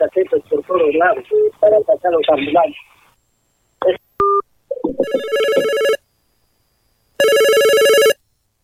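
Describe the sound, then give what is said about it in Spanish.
A telephone rings for an incoming call to a radio show. A voice comes first, then a few short electronic tones, followed by bright, buzzy rings in loud bursts separated by silence. “Llamada. Tenemos precisamente ese tipo de cosas. Estamos con una llamada, a ver, escuchémoslos.”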